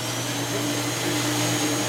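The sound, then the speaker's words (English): A shoe scrubbing machine at a gravitational wave observatory runs with a steady motorized whir: a constant, dense hum with a low droning tone underneath that holds at an even level for two seconds, with no voices. “So this is the sound of a shoe scrubbing machine at the Laser Interferometer Gravitational Wave Observatory.”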